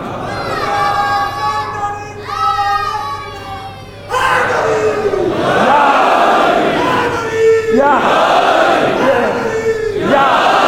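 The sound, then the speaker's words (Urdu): A crowd chants a religious slogan in loud unison. An opening chanted line gives way to a louder, sustained surge of many voices shouting together. “اس نعرے کی اپنی ایک ہیبت ہے، سارے خوف دل سے نکال دیتا ہے اور دشمن کو دہلا دیتا ہے۔”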